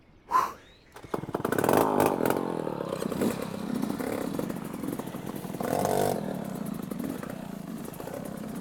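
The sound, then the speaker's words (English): A two-stroke motorbike engine runs near the end of a ride through several sections, struggling because it cannot change gear. A short sharp burst comes first, then a loud, buzzy, sustained drone with uneven revving and a surge partway through. “I'm not even sure if this bike will make it. Can't even change gear.”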